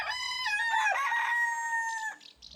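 A rooster crows on a farm: one long, loud call lasts about two seconds and ends with a quick downward break. Faint rustling follows.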